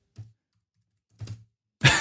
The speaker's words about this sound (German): Und wir spielen so, Text-Adventures. Dann, dann schreibe ich das schnell.